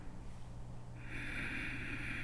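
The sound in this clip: A slow, deep breath is drawn in with the mouth closed and the throat muscles contracted. It begins partway in as a soft, steady, breathy hiss that holds evenly to the end.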